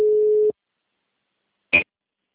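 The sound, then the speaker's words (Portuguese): A telephone call is placed and a single steady, mid-pitched ring tone sounds briefly, then cuts off, followed after a pause by a short blip. “Estou ligando aqui para ela.”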